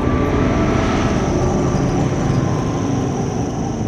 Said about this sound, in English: An aircraft flies above. Katniss turns to see it.